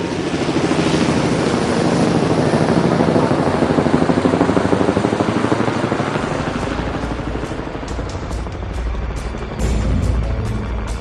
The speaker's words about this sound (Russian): Огромные туши военных вертолетов с шумом зависли над крышами торгового дома «Сомерсет и сыновья»